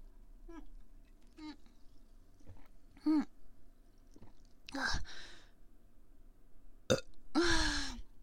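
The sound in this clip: Burping after drinking a lot: several belches of varying length and loudness, a few soft short ones followed by two longer, louder, croaking burps near the end.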